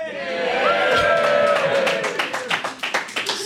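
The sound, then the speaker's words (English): A live audience at Camp FI cheers and whoops in a loud swell of voices, then breaks into dense, scattered clapping. “We're at Camp FI and we're recording this live. Very important context for the questions that are about to come. So there's a live audience here. Yay!”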